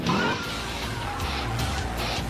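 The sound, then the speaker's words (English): Video game vehicles driving up a wall in battle mode, a steady roar of engines and tire skidding that holds at an even, loud level for the whole stretch without a break. “And now they're driving up a wall.”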